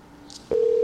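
Telephone dialing: a faint click, then a loud, steady electronic tone that starts halfway through and holds evenly to the end, with no talk.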